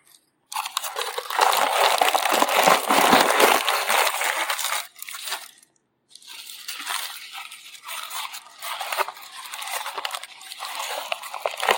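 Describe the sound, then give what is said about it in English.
Gold tissue paper crinkles and rustles as it is handled, in dense bursts of crisp crackling that stop briefly midway and then resume, fainter. “gold tissue paper”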